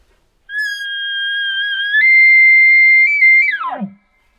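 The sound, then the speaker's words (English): A hunter's elk locator bugle call, a non-aggressive imitation of an elk, holds one long, high whistling note for several seconds, steps up slightly partway through, and then drops off sharply at the end. “a location bugle is going to be a pretty non-aggressive bugle, a real high note stretched out a long time, and that kind of drops off at the end. It's going to sound something like this.”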